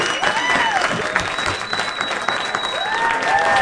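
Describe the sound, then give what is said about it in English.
Studio audience giving a guest an ovation, loud and sustained clapping from many hands, with a few sharp whistles rising above the steady roar. “A very nice ovation from our audience.”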